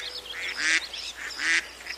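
Ducks call on a park pond, giving a few nasal, honking quacks. Two louder calls stand out among softer ones, faint and alone over a quiet background.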